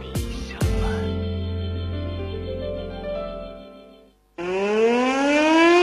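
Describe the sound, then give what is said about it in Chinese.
An air-raid siren sounds for a national defense education day alert: a loud wailing tone that climbs in pitch, starting after a brief hush that follows a sustained, steady musical tone. “如果你听到空中传来持续的警报声，别被吓得惊慌失措，请保持安定，那是防空警报在示明。”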